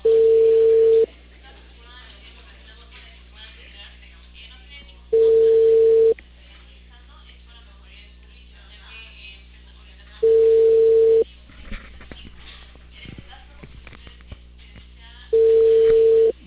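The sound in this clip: Telephone ringing tone of an outgoing call: four steady mid-pitched beeps, each about one second long and repeating roughly every five seconds, with faint low background noise in the gaps.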